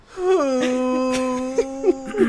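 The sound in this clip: A voice imitates a woman's odd, unusual sobbing cry: one long, steady moaning tone that dips slightly in pitch near the start, then holds level, with a few short catching bursts toward the end.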